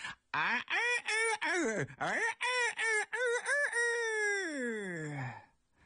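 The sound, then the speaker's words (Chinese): A voice imitates a rooster crowing at dawn: a run of short, choppy, rising yelps followed by one long, drawn-out, wavering note that trails off at the end. “就听窗户外头啊有雄鸡唱响，”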